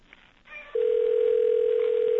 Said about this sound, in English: Gee, I hope I dialed that right. Okay, here we go. One ringy dingy. All right, it's ringing. It's ringing.